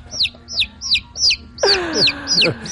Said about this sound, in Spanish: Un pollo.